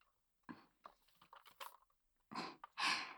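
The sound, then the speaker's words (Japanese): A straw is pushed into a drink of squash soda: soft crinkly rustles and scrapes, then two louder crunchy bursts of plastic scraping and crackling, with no talking. “私の分飲んでいいよ。ほらストロー入れてみて。”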